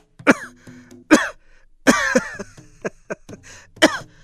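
A person's rough, chronic coughing fit comes in a few harsh, voiced bursts separated by short pauses, with one longer rasping spell in the middle, fairly loud against a quiet background.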